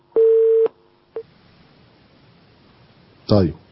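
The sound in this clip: Telephone call connecting on a call-in line: one steady half-second tone, a short blip about half a second later, then after a pause a brief, louder burst of sound.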